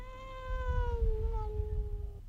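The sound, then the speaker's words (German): A tomcat in a house gives one long, drawn-out meow with rich harmonics. Its pitch dips slightly midway and it stops abruptly, over a steady low rumbling background. “Als die Polizei 5 Minuten später das Haus betrat, wurde sie nur von einem einzigen Überlebenden begrüßt. Es war Sebastian, der Kater.”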